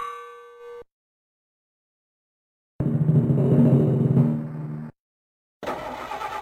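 Sound effects from Hard Drivin', the Atari arcade racing video game: a short, steady electronic chime, then a stretch of loud engine-like roar, then a burst of harsh noise.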